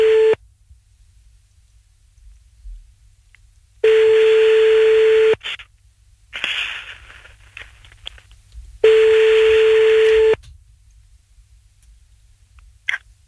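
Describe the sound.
A telephone call rings out: a steady, mid-pitched ringback tone sounds in evenly spaced beeps about one and a half seconds long, separated by long silent gaps, with brief line crackle in between.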